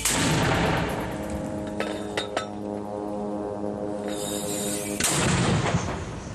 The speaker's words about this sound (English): Hamas released a video on Saturday, and they say it shows its militants firing mortar shells at Israeli forces in Gaza.